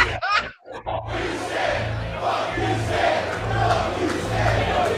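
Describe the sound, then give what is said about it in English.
A wrestling arena crowd in Jersey City boos a wrestler's entrance, a loud, sustained roar of many voices that holds steady after a brief burst of noise at the start. “not a favorite of the fans here in Jersey City, as the boos ring out for Invisible Stan.”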